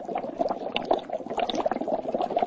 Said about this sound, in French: Tu vois l'eau qui bout là ? C'est de l'eau bouillante.